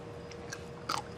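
Chewing a spicy Thai pounded papaya-style salad (tam) with fish, dressed with fermented fish sauce: a couple of brief, soft crunches, faint against a low steady background.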